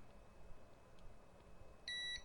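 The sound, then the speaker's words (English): A digital multimeter gives one steady, high-pitched electronic beep near the end, after a stretch of faint background hiss. “It bounces all over the place and then decides it wants to beep.”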